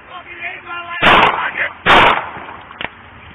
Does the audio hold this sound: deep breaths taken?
no